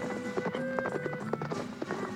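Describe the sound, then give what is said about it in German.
Faint clip-clop of horse hooves as riders mount and set off on horseback, with irregular hoofbeats over a steady tonal background. “Wir bestiegen die Pferde und ritten los.”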